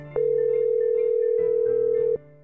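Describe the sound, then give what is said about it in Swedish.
A steady telephone tone sounds while calling a guest: one unbroken, even-pitched tone lasting about two seconds, loud and alone, with fainter background sound before and after. “Nu är det dags att ringa upp vår gäst Gunnel Arbeck.”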